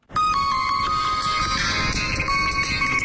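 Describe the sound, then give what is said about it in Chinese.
A phone rings with an incoming call for a construction project manager at a large Beijing building site, a steady, loud electronic ringtone of sustained tones over a dense wash of background noise, with no talking. “这已经是纪连党10分钟内接到的第三个电话了”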